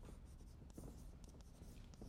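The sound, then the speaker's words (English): Scratchy writing strokes on a board during a lecture on game strategies, a steady run of short scraping marks that continues without pause and without talk. “If I'm writing, you should be writing.”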